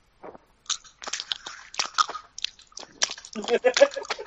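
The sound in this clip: Loud, obnoxious close-up chewing of food by a man: many irregular wet, crunchy mouth bursts in quick succession that grow denser and louder toward the end.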